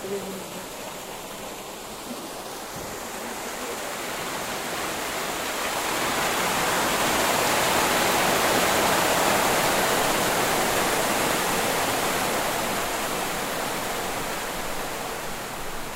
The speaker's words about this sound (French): La vanne, il y a une vanne. Je vais l'ouvrir un peu et vous allez voir le bruit que ça fait de l'eau là.